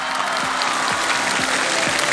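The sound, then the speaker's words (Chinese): Audience applause at an acrobatics show, with continuous, dense clapping and crowd noise that holds steady, over a regular low beat pulsing underneath. “战斗开始，谢谢掌声。”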